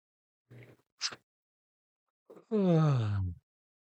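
A deep double-inhale breathing exercise: two short, sharp breaths in, then after a pause a long, loud, voiced exhale with a groaning, sighing quality.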